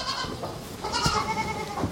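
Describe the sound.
Goats and their lambs bleating in a herd, with a few wavering, nasal calls rising over a steady background of animal noise.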